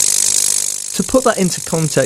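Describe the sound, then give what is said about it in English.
A multi-material 3D printer switching between up to eight materials fifty times a second makes a rapid, steady, buzzing ratchet-like ticking, and a person then speaks over the continuing mechanical noise. “this is the sound of the printer switching between materials at 50 hertz, or 50 times a second.”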